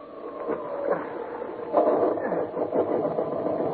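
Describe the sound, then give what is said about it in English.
A motor being coaxed into running: a rough, muffled mid-pitched mechanical drone that sputters, then grows louder and steadier about halfway through and keeps churning. “I'm going to make another attempt to get that motor working.”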